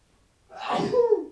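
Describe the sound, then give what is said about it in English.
A single sneeze bursts out after half a second of silence. It is a forceful, breathy blast with a voiced, throaty tail, and no talk accompanies it. “Bless you.”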